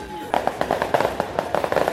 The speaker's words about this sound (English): But as the fireworks crackle overhead, the locals need to be careful.